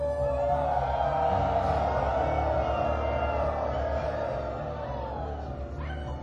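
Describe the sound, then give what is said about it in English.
Wolves howl at night in the forest, their long wavering howls overlapping in a sustained chorus. The sound stays steady and fairly loud throughout and eases slightly toward the end. “And at night they could hear the wolves howl.”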